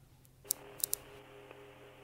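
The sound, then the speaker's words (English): Three sharp mechanical clicks as a tape is loaded into a tape player and the play button is pressed, followed by a low steady hum of the tape running. “We put the tape in and hit play.”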